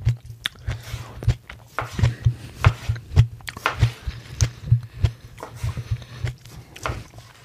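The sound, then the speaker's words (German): Biting into a ripe tomato gives a run of wet, squishy bites and chewing, with many soft crunchy squelches in an uneven rhythm over a low steady hum. “So, ich muss die einmal probieren, die Tomate. Die sieht so lecker aus.”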